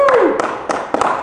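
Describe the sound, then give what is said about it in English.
Two people clapping during a live recording: a few sharp, loosely spaced hand claps, with a brief voice heard at the start. “That's the sound of two people. They're in phase and everything. That is the sound of two people clapping.”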